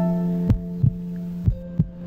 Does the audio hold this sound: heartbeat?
yes

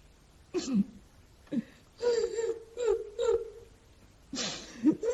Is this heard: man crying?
yes

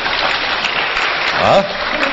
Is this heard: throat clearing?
no

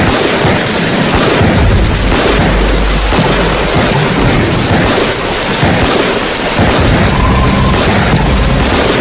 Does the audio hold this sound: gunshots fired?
yes

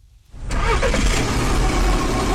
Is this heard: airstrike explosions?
no

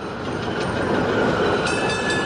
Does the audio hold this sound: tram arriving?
yes

